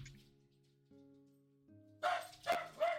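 Dogs bark during a tabletop role-playing game session: three loud barks in quick succession, after a quieter stretch of steady low tones.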